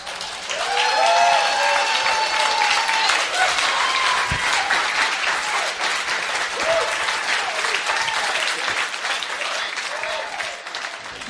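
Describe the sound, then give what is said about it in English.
A standing ovation from an audience after a presentation: sustained, loud clapping from a large crowd, with whoops and cheering voices rising above it early on, then an even roar that continues to the end. “As you just heard, when Nikita finished her presentation, we were all on our feet, giving her a standing ovation.”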